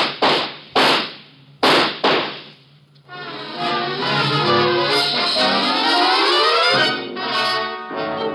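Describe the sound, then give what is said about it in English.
Sharp gunshots ring out as a man with a gun opens fire: a few loud cracks in quick succession, followed by swelling dramatic orchestral music. “Watch out, he has a gun! Get down! Shoot him, Rovar!”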